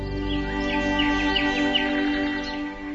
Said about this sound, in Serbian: ptice napustiše svoja gnezda i veselom pesmom pozdraviše jutarnju rumen.